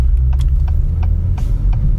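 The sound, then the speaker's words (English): Exhaust rumble from a 2021 Acura TLX Type S with a 3-liter turbocharged engine: a loud, steady, deep low drone that holds throughout without a rowdy edge. “The exhaust note's good. I mean, it's a 3-liter turbocharged engine, so it's not exactly the most rowdy sounding thing.”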